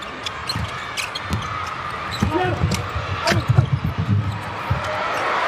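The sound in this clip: Basketball dribbled up the court during a game after a rebound, a series of quick, rhythmic thumps under a commentator talking steadily, with crowd noise behind.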